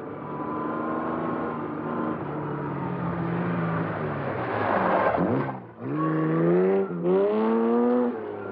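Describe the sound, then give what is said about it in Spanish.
Sports car driven fast along a dirt road, its engine roaring loudly and steadily, then briefly dipping before rising again in pitch twice toward the end, like shifting gears under hard acceleration. “Jan conduce a gran velocidad el deportivo por un camino de tierra.”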